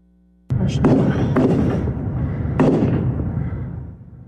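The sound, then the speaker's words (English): Gunshots from a large rifle during a shooting while people hide in their vehicles: four loud, sharp booming cracks, each trailing into a heavy rumbling decay that slowly fades away. “The shocking video showing people hiding in their vehicles as shots rang out.”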